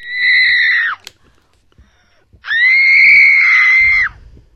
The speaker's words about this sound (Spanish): Ya sabéis que ya llevamos varios programas sacando un grito desde nuestros adentros.